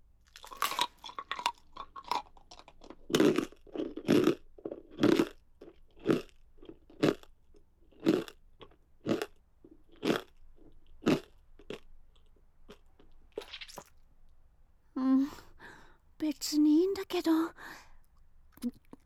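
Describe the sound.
Crunchy food is chewed in many distinct, fairly regular crunching bites, quiet and close. A soft voice speaks near the end.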